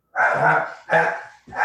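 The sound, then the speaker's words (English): A dog barks at another dog outside: three long, loud, rough barks in quick succession, the last one cut off, with no voices. “Sorry, my dog saw a dog out there.”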